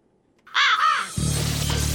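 A raven caws, giving a couple of harsh, hoarse calls in quick succession, followed by a low, pulsing rhythmic beat.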